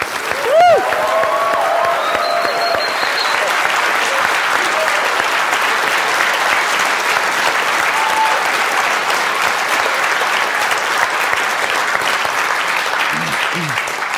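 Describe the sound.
Sustained audience applause welcoming a speaker at a business event in Santa Barbara: a dense, even wash of clapping from many hands that holds steady for the whole stretch without fading.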